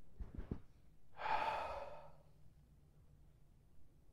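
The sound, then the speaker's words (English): One deep exhale, a soft, breathy rush of air lasting about a second that fades out, preceded by a few faint low knocks. “So let's exhale.”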